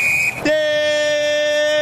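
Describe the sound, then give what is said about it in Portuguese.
A referee's whistle ends a football match between Grêmio and Corinthians in Porto Alegre, a loud, steady, shrill tone held for nearly two seconds. “volta com o Grêmio na esquerda quando apita o árbitro paranaense Lucas Torezin.”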